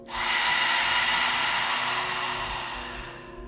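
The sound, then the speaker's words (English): A long, deep exhale through an open mouth during a guided breathing exercise: a steady, airy rush of breath that holds for about three seconds and then slowly tapers off. “Take a deep breath in. Expand the belly, rib cage. Fill up through the chest. And open your mouth. Breathe out.”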